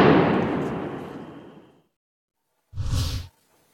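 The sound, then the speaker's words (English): Artillery shelling on a contested town: a heavy blast with a long rumbling decay, a brief silence, then a second shorter, sharp burst. “Now, Aaron, that noise, that shelling picked up again this morning when we were there, an intensity you'd normally hear, frankly, if two rival armies were duking out for control of a town.”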